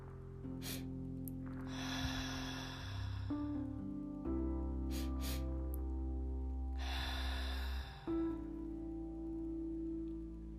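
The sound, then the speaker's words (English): Guided breathing: two quick, sharp sniffs through the nose followed by one long, deep, airy exhale, the pattern heard twice over a soft sustained music bed. “We're going to take two inhales through the nose that are quick paced, and then one deep, long exhale. It'll sound like.”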